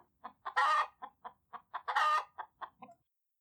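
Chickens cluck in a quick series of many short, sharp clucks, broken by two longer, louder squawking calls, all fairly faint and with no talking.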